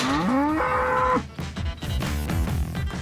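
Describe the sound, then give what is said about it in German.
A bull lows in one long, loud, harmonic moo whose pitch climbs and then steps higher before breaking off, followed by noisier, rougher sounds; no one talks. “So, da ist unser Bulle.”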